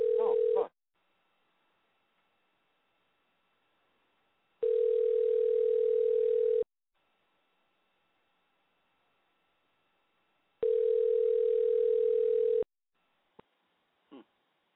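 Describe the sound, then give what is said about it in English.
A telephone line rings while a call is dialed: three long, steady ringback tones, each about two seconds, separated by roughly four-second silences, then a couple of brief clicks as the line picks up. “All right, we'll dial him again.”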